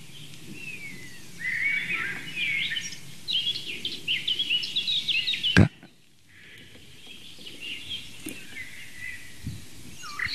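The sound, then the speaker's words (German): Blackcap song: bright, fast, blackbird-like fluting in quick warbling phrases, followed by a sharp click and a quieter stretch of faint background. “Das helle, amselartige Flöten, schnell vorgetragen von der Mönchsmücke.”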